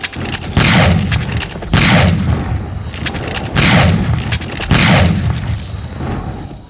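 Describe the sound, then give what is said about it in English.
Heavy booming gunfire in a dramatic shootout: five loud, evenly spaced shots, each a sharp blast followed by a long rumbling decay that runs into the next. “Shoot them!”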